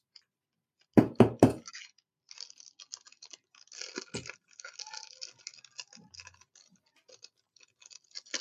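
Trading card packs being torn open and handled: three sharp, loud snaps in quick succession, followed by many fainter crinkling and rustling bursts of foil wrapper.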